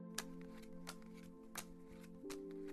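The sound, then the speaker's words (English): Four light snaps of playing cards being flipped over during a card game, spaced evenly apart over a steady humming tone. “Then we'll finish the game and go, okay? Come on, let's play. I'll flip the cards over.”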